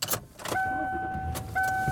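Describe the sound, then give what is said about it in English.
Car driving along a road, giving a steady low road and engine hum inside the vehicle, with a sustained high electric whine that starts, stops and then returns near the end. “I am driving home.”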